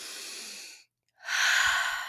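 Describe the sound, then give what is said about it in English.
Forceful pursed-lip exhale during breathwork practice: two airy breath sounds separated by a short silence, the second louder, hissier and more forceful. “It wants the power and the force behind a like closed lipped, you know, pierced lipped exhale.”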